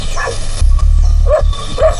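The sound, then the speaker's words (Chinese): Dogs bark in a village, with a few short, sharp yelps at intervals over a low, steady background. “你没听到村子里鸡鸣狗叫的吗？那正常。”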